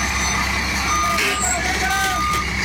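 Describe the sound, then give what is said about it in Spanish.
Reversing beeps from a truck backing up while being guided into a turn: a few short, high electronic tones over a loud, steady engine rumble. “En la reversa, dele para atrás, dele. Yo le aviso, hágale.”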